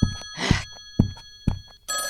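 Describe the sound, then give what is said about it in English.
An old-style telephone bell rings on a desk in short, loud, jangling bursts about half a second apart, the final ring running on steadily at the end. “The phone is literally arm's length in front of you on the desk. I'm not paying you so I can answer my own phone.”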